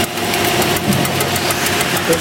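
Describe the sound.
A drill press drills a hole, fed down slowly while coolant is sprayed on. It makes a loud, steady mechanical drone with a faint rhythmic pulsing throughout.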